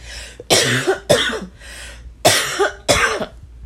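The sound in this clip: Harsh, throaty coughs from a person with a lingering cough after COVID, four loud explosive bursts falling in two pairs, with fainter breathy sounds between them and no speech.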